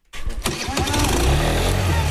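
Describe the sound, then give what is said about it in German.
A moped engine starts up on a school playground used as a practice area, sputtering into life and quickly settling into a loud, steady buzzing drone. “in diesem Zusammenhang sage ich Motor an.”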